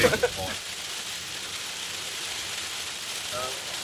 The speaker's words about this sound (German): Ich bin ja sehr gespannt, was nachher auf der Aufnahme zu hören sein wird, außer dem Regen.